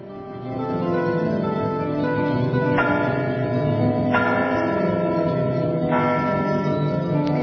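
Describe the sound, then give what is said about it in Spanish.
Church bells ring from a church in Toledo, a steady, loud wash of sustained overlapping tones with a few distinct fresh strikes standing out, and no voices. “¿Y esas campanas de dónde son? Es de una iglesia de Toledo, pero no te puedo especificar cuál, porque estaba grabando, empezaron a sonar y empecé a grabar.”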